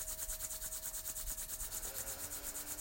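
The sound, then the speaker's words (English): Hands rubbing briskly together make a soft, continuous dry swishing with a quick back-and-forth rhythm. The sound is quiet, with no talk. “Begin rubbing your hands together. Get some energy going.”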